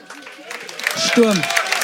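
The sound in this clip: Audience applause at a live stage show, greeting a couple as they come on, building from a light patter into a fuller clatter while a voice speaks over it.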